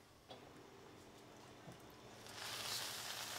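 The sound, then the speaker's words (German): Crêpe batter sizzles on a crêpe iron brushed with egg yolk rather than fat, as galettes bake. Faint, with a few soft ticks, then a steady hiss that swells in the second half. “Das Crêpe-Eisen wird vorher nicht mit Fett, sondern mit Eigelb bestrichen. Jetzt wartet man, dass es backt.”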